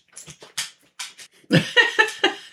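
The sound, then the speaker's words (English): A mostly blind, totally deaf dog whimpers in many short, high, whiny yelps. They start soft and sparse, then grow louder and come closer together toward the end. “one of our dogs is giving John the eye. Yeah. Pet me. Pet me. I want to go for a walk. I want to eat food.”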